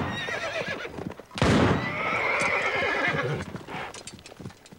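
Horses, a mare and her colt, taken by a fleeing Confederate soldier: a loud neigh bursts out amid hoofbeats and movement, with further whinnying and clip-clop continuing afterward.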